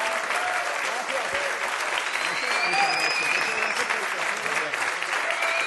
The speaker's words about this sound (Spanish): Un fuerte aplauso.